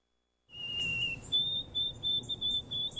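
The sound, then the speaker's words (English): White-throated sparrow song: a clear, pure whistled note followed by a series of higher, steady whistled notes repeated several times over a low, quiet background rumble. “Wondering what's singing in your backyard? That's the song of the white-throated sparrow.”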